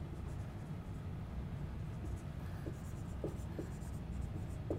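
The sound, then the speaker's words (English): A pen drawing a diagram makes faint, scratchy strokes over a steady low hum. “So maybe it's, I'm going to go ahead and draw it separately.”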